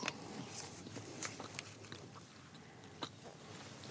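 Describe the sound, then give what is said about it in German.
Someone bites off a small piece of plain waffle and chews it, making a quiet run of soft crunchy clicks with a few crisper crackles scattered through. “So, wir haben noch eine weitere Waffel zum Testen. Ich nehme hier schon mal ein kleines Stückchen runter.”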